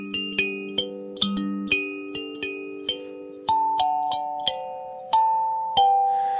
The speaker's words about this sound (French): Ça s'appelle Sansa, Kalimba, suivant les différents pays en Afrique. Les Européens ont appelé ça piano à pouce.